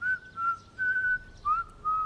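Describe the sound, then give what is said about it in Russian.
A person whistling alone, five clear, high notes of uneven length with small bends in pitch. The tune is steady and fairly soft over a quiet background. “насвистывает.”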